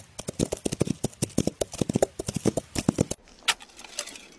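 Horses galloping, a rapid run of many uneven hoofbeats that stops abruptly, followed by a few fainter knocks.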